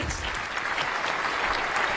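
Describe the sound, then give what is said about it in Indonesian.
Applause from an audience of parents cheering on children at a quiz competition: a dense, continuous patter of many hands, steady in loudness from start to finish. “Oke, sebelumnya tepuk tangan dulu Bapak Ibu. Kita berikan semangat untuk anak-anak kita.”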